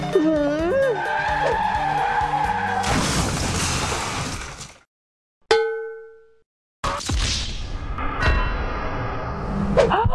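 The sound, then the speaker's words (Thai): A car skidding and crashing on a road. A long tyre squeal with wavering pitch gives way to a loud crash of shattering and clanging, then a ringing metallic ding that fades into silence before another burst of noisy clatter. “เมื่อกี้รถชนกันเหรอขับรถประสาอะไรกันเนี่ย”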